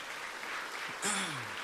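A church audience applauds to welcome back a returning member, a soft, steady wash of clapping with a short vocal sound sliding downward partway through.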